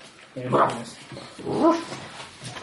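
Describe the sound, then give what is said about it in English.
A person imitates a dog's bark with two loud, voiced, yelping barks about a second apart, the second longer and slightly higher, with no other talk. “Did you just bark at me?”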